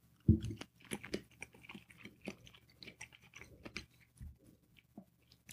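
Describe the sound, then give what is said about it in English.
Chewing a bite of food made with bell peppers and corn, served on rice: faint, soft, irregular crunchy chews and wet mouth sounds, with no talking. “Want to take a bite? My mouth is watering.”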